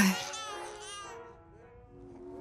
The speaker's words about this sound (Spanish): La niña vuelve a llorar.